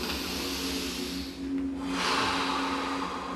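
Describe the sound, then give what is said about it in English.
Deep inhale and exhale breathing during a seated yoga practice with hands at the heart: a soft, airy rush of breath, briefly dipping before a fuller, louder breath follows, over a faint steady low hum and no speech. “sitting up tall, hands to the heart, deep inhale and exhale to begin.”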